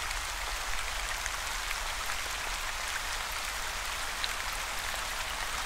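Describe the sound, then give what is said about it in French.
Rain falls with drops splashing on a surface. It forms a steady, fairly quiet hiss of dense patter, with occasional sharper individual drop ticks throughout. “Au bruit distinct que les gouttes forment en s'écrasant.”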